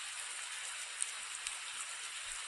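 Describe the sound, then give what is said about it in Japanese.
Steady rain falling on a tree makes a soft, continuous, even hiss with a few faint drop ticks. It is quiet throughout. “絶え間なく、スルスル、スルスルと落ちてくる雨は、この木の上にも、他のどれもと同じように降り注いでいるのに、”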